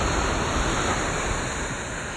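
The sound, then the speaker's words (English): Ocean waves on the beach give a steady, unbroken wash of surf noise with no distinct breakers standing out. “I don't know if you can hear the water in the background, but I love the beach.”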